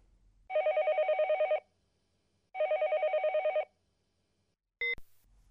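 A telephone call rings out with two pulsing electronic ring bursts, each about a second long and separated by a pause, then a short high beep.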